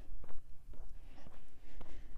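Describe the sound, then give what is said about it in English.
Footsteps of someone walking outdoors, setting off from a house to head up a big hill, a steady run of soft, evenly spaced steps about half a second apart. “I stepped out of the house here, and we're going to be walking up the big hill.”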